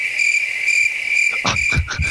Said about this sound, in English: Able to use the crickets twice tonight.